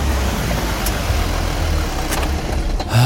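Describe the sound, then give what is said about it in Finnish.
A car drives off, its engine rumble and road noise forming a loud, steady drone throughout that swells at the very end. “Tuo auton avaimet, me lähdetään nyt heti Uittokalustolle Nekalaan.”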